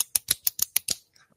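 A clicky pen snaps six times in quick, fairly even succession, each click sharp and bright, followed by a couple of faint ticks as it settles.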